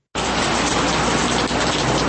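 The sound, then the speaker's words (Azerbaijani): Steady hiss of fine autumn drizzle over Baku, the first autumn rain in months, a continuous even wash of rain noise with no voices. “Bugün Bakıya bir neçə aydan bəri ilk payız yağışı yağıb. Ancaq ara sıra bəzi yerlərə çox narın yağan bu yağış”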